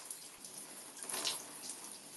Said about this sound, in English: I guess I can just walk you guys through when I do shower. Oh, that was so cold.